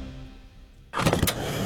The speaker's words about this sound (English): That sound you hear? That's your regular fill-up at the pump.